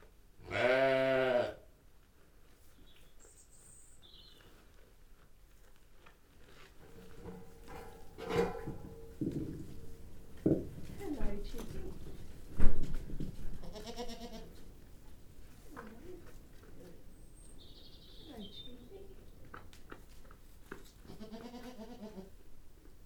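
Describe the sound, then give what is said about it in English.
A goat bleats loudly and waveringly in a barn shared by sheep and goats, then quieter barn rustles and clatter follow, with fainter bleats later on. “in Caro's barn, where she keeps her sheep and her goats. And out of the mix of sounds, you should be able to hear one goat sound, and that is the sound of Chibi.”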